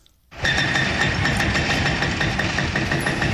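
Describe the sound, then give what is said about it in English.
Heavy machinery demolishing a Palestinian house on a hillside below Jerusalem's walled old city: after a brief quiet start its engine cuts in abruptly, then holds a loud, steady rumble to the end. “Hillside beneath Jerusalem's walled old city, I watch a Palestinian house being torn down.”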